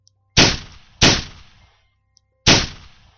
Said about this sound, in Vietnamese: Vị chiến sĩ đó không còn cách nào khác, đã đành phải bắn chỉ thiên.